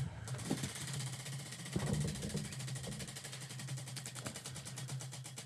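A prize wheel spins with rapid, steady ticking as its pointer clacks over the pegs. The ticking is faint and sits over a low hum, with a few duller thuds mixed in.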